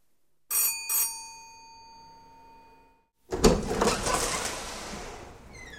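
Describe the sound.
A doorbell rings twice in quick succession, two bright metallic strikes whose tones linger and slowly fade. After a short pause, a broad burst of rustling, door-like noise follows.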